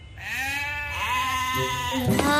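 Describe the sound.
A lamb bleats in one long, quavering cry, clear and fairly loud, its strong tone holding steady before a brief abrupt wobble near the end.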